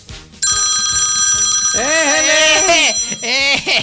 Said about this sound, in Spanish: Entró una llamada, ¿la contestamos?